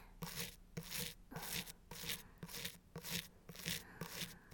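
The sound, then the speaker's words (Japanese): A person's teeth brushed by someone else with a toothbrush, giving many rhythmic, evenly spaced bristly scrubbing strokes at a steady soft level, with no talking. “こうして、他の人に歯をゴシゴシされるのって、まだくすぐったいままです？”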